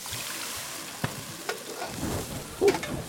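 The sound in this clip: Shrimp sizzling as liquor is flambéed in a frying pan over a gas burner, a soft continuous hiss broken by a few sharp clicks and a louder burst toward the end.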